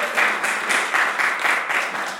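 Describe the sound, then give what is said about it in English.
An audience applauds to welcome a speaker at a Sunday storytelling and interview event, the dense, steady clapping continuing evenly without pause. “Give her a hand. Give her a welcome.”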